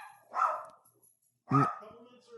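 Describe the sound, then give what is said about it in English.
Dogs bark in a couple of loud, separate bursts with a short silence between them, and another bark begins right at the end. “Dogs barking.”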